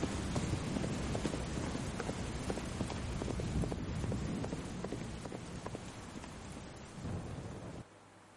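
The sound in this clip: A horse gallops on a muddy road through a rainy, stormy night. Its quick, steady hoofbeats sit under a wash of rain and low thunder rumble, and the sound drops off abruptly near the end.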